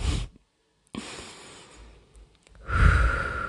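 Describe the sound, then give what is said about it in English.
A group of people breathe deeply while being told to calm down, making airy, breathy rushes in a few separate bursts with short quiet gaps between them. The last burst is the loudest and fullest. “So, let's chill for a sec. Let's take a deep breath, y'all.”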